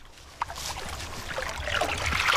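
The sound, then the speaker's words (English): Pond net scooping through water in the shallow margins of a farm pond restored two years ago: a small sharp splash early, then soft, continuous trickling and sloshing water movement. “I'm just scooping the net in the shallow marginal areas, which is where most of the biodiversity in ponds thrives.”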